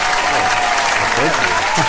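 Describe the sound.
Audience applause welcoming a guest onto a talk show: dense, steady clapping that stays loud and even from start to finish.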